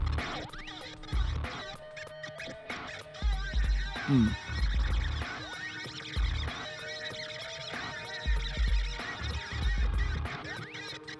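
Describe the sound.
A heavily distorted rock interstitial with choppy, cut-up guitar tones and scratchy textures over a pulsing, throbbing low beat that runs loudly throughout.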